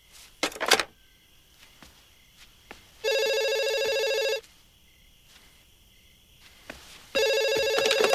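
Telephone ringing on a call that was redialed after a wrong number: a bright electronic trill sounds in two steady bursts separated by quiet, with the second continuing to the end. A few soft clicks come before the first ring.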